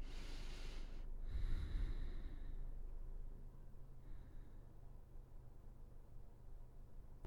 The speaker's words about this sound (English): Couple massive breaths here.